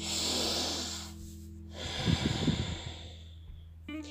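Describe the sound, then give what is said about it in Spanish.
A deep breath in and out during a guided breathing exercise: two long, airy rushes of breath, soft and unhurried, with no talking. “Inhala completamente y exhala completamente.”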